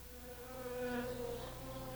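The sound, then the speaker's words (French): A wasp buzzes in a steady, continuous droning hum lasting about two seconds, its pitch wavering slightly. “Une guêpe m'a piqué.”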